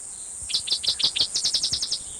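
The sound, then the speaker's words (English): Cicadas chirping: a rapid run of many short, high chirps over a steady, high-pitched insect drone. No voices are heard. “different song, cicadas in the background”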